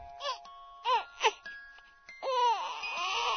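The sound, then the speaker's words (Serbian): A child cries in short, bending wails at first. These give way to a longer, stronger sustained cry in the last second or so. “Eto, čuje se. Tiho, pa sve jače. Plače. Plače dete, kao što je oduvek svako dete plakalo i plakaće, kad je gladno, uplašeno,”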